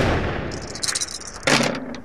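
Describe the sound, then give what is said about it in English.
A single pistol shot fired against a tree cracks out as one sharp, loud burst about two-thirds of the way through, briefly ringing before it fades, preceded by quieter rustling and faint higher clatter. “Hip, like, levels his pistol against one of these trees and fires.”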